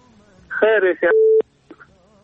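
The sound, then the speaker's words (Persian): Telephone line tone after a caller hangs up: a brief burst of voice, then a flat, steady electronic tone lasting about a third of a second and ending abruptly with a click, followed by faint noise. “بله تلفنش هم قطع کرد احمد آقا و نمیفهم چرا تماس گرفته بود.”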